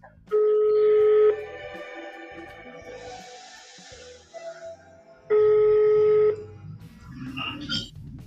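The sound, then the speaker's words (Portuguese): A telephone call being placed again produces two long, steady, bright ringing tones about four seconds apart, each lasting roughly a second, with faint low murmurs in the gaps between them. “Me desligou, você acredita? Não é possível. Eu vou ligar de novo.”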